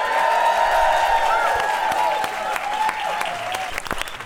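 A live audience applauds and cheers at the Bainbridge Island Museum of Art. Dense, loud clapping with a few whoops is sustained throughout and thins slightly toward the end.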